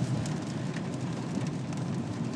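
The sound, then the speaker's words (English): Heavy rain pours down in a dense, steady hiss, a continuous downpour at an even loudness throughout with no voices. “the rain that was promised to arrive at 3 o'clock has, right on cue. It's absolutely throwing it down.”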